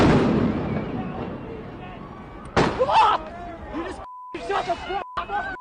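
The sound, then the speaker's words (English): Police on horseback fire rubber bullets at protesters during a street clash, a sharp blast at the start and another mid-clip, with shouting voices and a steady beep tone. “The LAPD moving in on horseback, firing rubber bullets at protesters, moving them on through the heart of LA.”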